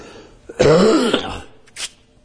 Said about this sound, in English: Excuse me, I apologize for this. Not what I'm going to say, but my cough.